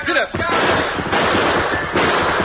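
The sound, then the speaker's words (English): Gunshots in a western shootout during a getaway: a few loud, booming bursts with long rumbling tails that run together into a dense, continuous roar. “They're shooting.”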